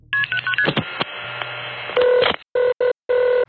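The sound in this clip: Telephone keypad tones dial the emergency number 111 as a sound effect: a quick run of electronic beeps, a brief steady tone, then a few repeated ringing pulses on the line.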